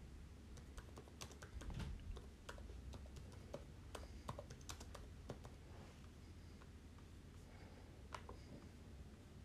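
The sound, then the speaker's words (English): Typing on a computer keyboard: many quick keystrokes in an irregular, steady patter throughout, over a low background hum, with no talking. “Let me look it up real quick, because I don't want to get this wrong. Let me type this in real quick.”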